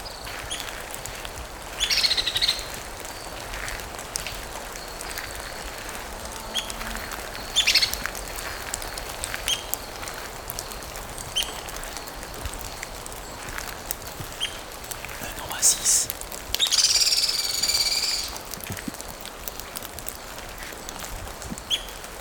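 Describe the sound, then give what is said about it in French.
Birds chirp in a green park within a national park camp. A few short, high bursts of calls stand out over a steady background hiss. “des oiseaux, des gouttes de pluie, un coq, des chiens.”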